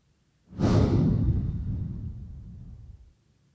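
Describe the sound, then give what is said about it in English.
A long exhale of breath: one airy whoosh that starts suddenly, then thins and fades gradually over roughly two and a half seconds, heard alone. “So let's exhale.”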